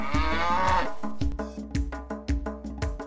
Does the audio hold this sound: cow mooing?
yes